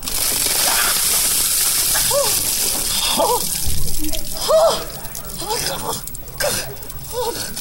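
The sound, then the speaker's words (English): Ice water dumped over someone taking the ice water challenge, a splashing gush of water amid noisy sloshing and dripping, with voices sounding over it. “Trending, the latest celebrity to take the ALS Ice Water Challenge, Kermit the Frog. On my count, 3, 2, 1.”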